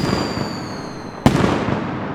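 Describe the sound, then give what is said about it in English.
A fireworks mortar launching skyward gives one sharp, loud thump partway through, set against a continuous dense crackling and hissing that carries on after the launch. “a mortar rockets skyward, and a large chrysanthemum of red sparkles fills the sky.”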